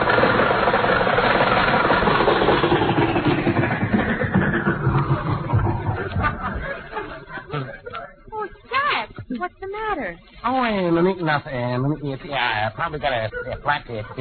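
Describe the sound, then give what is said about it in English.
A car engine runs while the car is driven at night. A steady low rumble plays alone at first, then fades under people talking. “The sad sack meets a girl and takes her out driving one night.”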